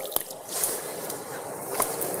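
A little water is rubbed over the left hand during ablution, giving soft wet squishes and a few small splashes, quiet and steady throughout.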